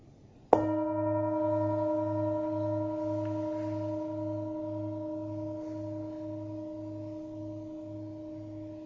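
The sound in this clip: A meditation bell is struck once, giving a sharp attack that blooms into a long, pure, sustained ring. The low tone pulses with a slow wobble as the sound fades very gradually.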